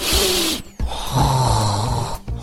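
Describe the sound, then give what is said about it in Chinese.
Loud, exaggerated breathing from a person trying to keep quiet while hiding, a few long raspy breaths with a snore-like rattle and brief gaps between them. “我呼吸就这么大声，怎么办？”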